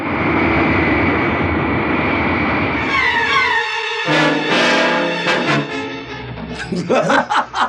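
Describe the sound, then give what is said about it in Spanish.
A damaged airplane descends with one engine dead and the other on fire. A loud, steady engine roar gives way to a falling whine, followed by wavering tonal sounds and choppy bursts near the end. “El avión semidestrozado, con un motor inutilizado y otro envuelto en llamas, desciende peligrosamente.”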